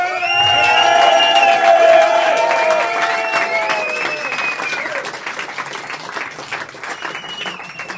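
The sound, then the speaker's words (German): Loud applause and cheering from a crowd for the bar staff at a live show, dense clapping with high whoops over the first half, then continuing steadily and a little softer to the end. “einen richtig fetten Applaus gönnen, die kriegen sonst nie einen.”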